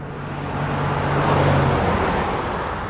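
A car drives along a motorway, giving a broad, steady roar of road and tyre noise that swells over the first second and then holds level, with a low engine hum in the opening moments.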